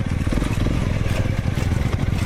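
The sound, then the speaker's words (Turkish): Motorcycle engines of a group of riders crossing rocky, steep mountain roads in the Amanos Mountains, a loud, continuous rumbling drone with rapid low pulsing and rough clattering texture throughout. “Taşlı yollardan geçtiler, dik yamaçları aştılar. Osmaniye'de bir grup motosiklet tutkununun hedefi Amanos Dağları'ndaki Keldaz mevkisiydi.”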